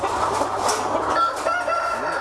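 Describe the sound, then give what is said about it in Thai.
Chiang Mai Pradu Hang Dam black-tailed chickens cluck and crow at a breeding farm, a continuous fairly loud mix of calls with no talk. “เพื่อการเพาะขยายพันธุ์ไก่ประดู่หางดำเชียงใหม่โดยเฉพาะเลยล่ะครับ”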